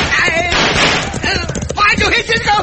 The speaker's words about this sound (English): Hey, we are not out of trouble, Pancho. They're about to open fire on us. Look out, Pancho!